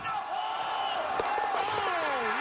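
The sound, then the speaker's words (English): Stadium crowd at an Australian football match cheers a kick, a loud, dense roar that holds steady for the whole stretch, with thin whistle-like tones gliding over the noise. “Listen to the crowd. They're going to go nuts when he hits this thing.”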